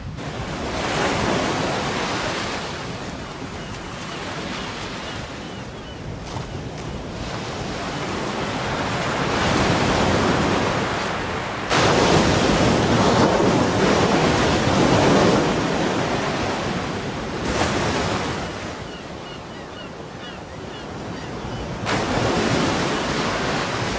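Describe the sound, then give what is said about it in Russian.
Stormy sea waves breaking on the shore in Italy, a loud, continuous roar of surf that swells and surges in waves, with gusty wind noise mixed in. “Салали вместе со своей любовью на берегу бушующего моря.”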